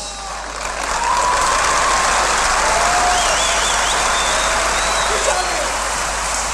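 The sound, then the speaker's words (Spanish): Crowd applauding at a carnival: a dense, steady roar of clapping swells in during the first second, then holds loud and even to the end. “mirá la gente que hay hoy, la gente lo aplaude”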